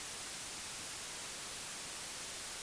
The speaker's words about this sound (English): turn and see that the broken television set is saying static through the cracked glass.